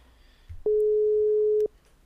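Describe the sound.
Ringing tone of an outgoing telephone call: a single steady tone lasting about one second that starts and stops cleanly against a quiet background.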